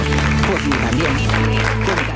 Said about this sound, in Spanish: Un aplauso para Laura Márquez.